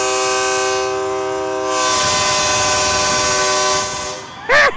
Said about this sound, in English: He's got a horn. Hey, toot your horn, will you?